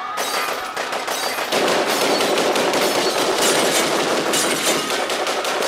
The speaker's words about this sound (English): it's Gatling gun spinning up.